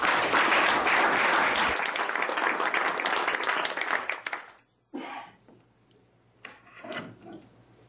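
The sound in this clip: An audience applauds to welcome a speaker at a World TB Day talk on tuberculosis. The clapping is steady for about four seconds, then dies away, followed by a few soft knocks and handling rustles.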